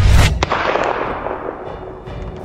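A rifle gunshot cracks out as a loud, booming blast with a long rumbling decay, followed by sharper bursts.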